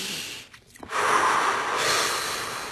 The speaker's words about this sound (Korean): 숨 한번 깊게 들이마시고